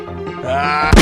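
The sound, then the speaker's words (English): A single sharp gunshot bursts out near the end, sudden and loud, after a brief tonal sound. “You shot me. Yeah, I sure did. This gun isn't as cool as Shirley.”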